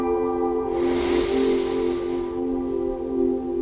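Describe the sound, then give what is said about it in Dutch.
A deep breath drawn in through the nose during a relaxation exercise: a soft, airy hiss that swells for about a second and a half over a steady tonal background, then fades out. “Adem diep in via je neus.”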